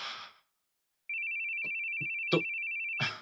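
A telephone ringtone: a steady, high electronic tone lasting about two seconds after a short sound and a moment of silence, with a few brief clicks during the ring.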